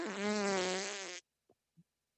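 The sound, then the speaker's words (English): A wet, stinky fart sound effect played by an Amazon Alexa speaker: one long, buzzy, rasping blast lasting just over a second that cuts off abruptly, followed by two faint brief ticks. “that was a wet and stinky fart.”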